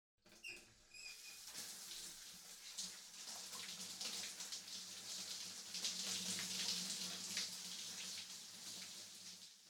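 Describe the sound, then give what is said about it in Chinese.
Warm shower water rinses a body in a bathroom, a faint continuous hissing spray with soft splashing and patter that stays fairly even throughout. “替你冲洗身子。 感觉舒服吗？温暖的热水使身心都不断的放松呢。”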